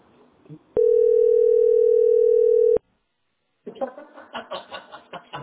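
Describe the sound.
Telephone dial tone of an outgoing call, a loud, steady single-pitched tone holding about two seconds before cutting off abruptly. A pause of silence follows, then a voice begins talking.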